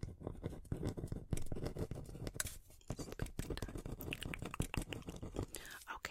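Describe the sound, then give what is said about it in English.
Pen scratching as something is written down during a relaxing spa roleplay: quick, dry scratches and taps come in uneven clusters under soft whispering. “Okay, let me write that down, okay?”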